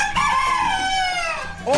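A rooster crows once, a loud, drawn-out harmonic call that sinks gradually in pitch before it trails off.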